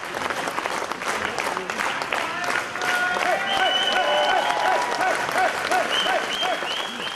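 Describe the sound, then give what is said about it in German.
Loud crowd cheering and applause as a politician enters a guesthouse at a campaign event, a dense, continuous roar of clapping and shouting that holds steady throughout and swells slightly partway through. “Wie ein siegreicher Matador zog Ulrich Siegmund unter lautem Jubel in das Gästehaus Spiegelsberger ein.”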